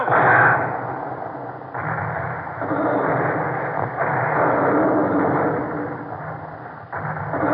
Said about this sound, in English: Give the order. Open fire. Yes, sir. All guns ready! Fire!